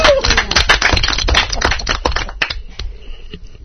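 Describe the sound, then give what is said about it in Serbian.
Hand clapping at a child's birthday celebration: a quick, uneven burst of sharp claps, loud at first, then thinning out and fading toward the end. “Hoćiš aplauz? Aplauz.”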